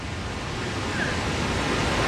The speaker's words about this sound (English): That incredible sound you can hear, that thunderous sound, is the sound of the Victoria Falls here on the border of Zambia and Zimbabwe in southern Africa.